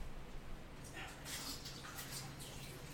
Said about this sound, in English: Hang on a second. I'm gonna wash my hand real quick. I'm gonna wash my hands for 20 seconds.